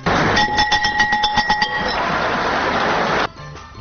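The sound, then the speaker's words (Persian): A school bell rings to open the new school year in Afghanistan, a quick run of bright metallic rings lasting about a second and a half. Loud, steady noise runs under it and continues briefly after the ringing stops. “سال جدید تعلیمی در افغانستان با به صدا در آمدن زنگ مکتب از سوی رئیس جمهور اشرف غنی آغاز شد.”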